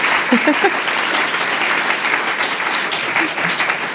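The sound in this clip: An audience applauds to welcome a guest, giving steady, dense clapping that stays loud and even for about four seconds. A brief voice is heard near the start.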